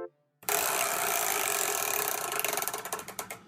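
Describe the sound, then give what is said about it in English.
A chore wheel spins with a dense ratcheting clatter that starts abruptly, then slows into distinct, separate clicks toward the end as the wheel winds down. “to spin that old chore wheel”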